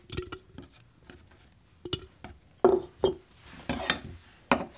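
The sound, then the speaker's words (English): Slices of pickling cucumber drop into a glass jar, making several soft, irregular thuds and light glassy clinks, quiet and spaced apart with no talking. “And as you're slicing these cucumbers, you're just going to want to put them directly into the jar.”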